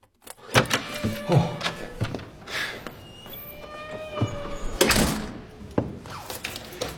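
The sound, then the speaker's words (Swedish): Someone rattles a locked door that will not open, producing a series of uneven knocks, thumps and metallic rattles in irregular bursts, with brief quieter pauses between the jolts. “Jag kommer inte ut! Har de låst in mig? Vad är det här för jävla lås?”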